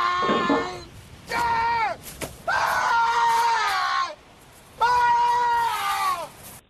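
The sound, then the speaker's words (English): A man's famous film yell: several loud, strained, drawn-out cries, each rich in harmonics and sliding downward in pitch at the end, separated by short pauses. “He has that famous yell, and it sounds like this.”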